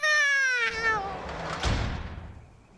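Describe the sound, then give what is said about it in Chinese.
A cat's loud, drawn-out meow that slides downward in pitch, followed by a softer, rougher trailing sound that fades away. “放翻你只猫出嚟啦”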